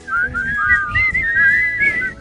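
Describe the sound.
Someone whistles a melody in clear, pure notes that glide up and down between pitches. The whistling is loud and continuous over a low, steady background rumble.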